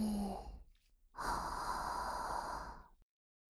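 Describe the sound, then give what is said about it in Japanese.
Deep, airy breathing: a shorter breath, a brief pause, then a longer drawn-out breath that fades to silence. The breathing is soft and heard on its own. “ルルナと一緒に深呼吸をするっす。吸って吐いて、”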